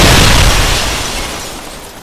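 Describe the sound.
A bomb explosion: a loud, broad boom that begins at full force and then rumbles and fades steadily over about two seconds, with no voices.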